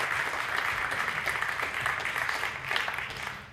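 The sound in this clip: Audience applause welcomes a speaker with an even patter of many hands clapping throughout. It stays steady and tapers off slightly at the very end.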